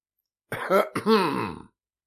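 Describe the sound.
A man clears his throat in two quick, voiced rasps, the second longer and more drawn out, heard alone with silence before and after.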